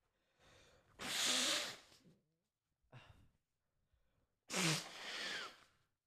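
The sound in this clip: Two forceful sneezes blamed on seasonal fall allergies, each preceded by a quick breathy inhale, with a faint snort of breath between them.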